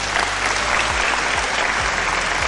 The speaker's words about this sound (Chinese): 来，掌声邀请他上场。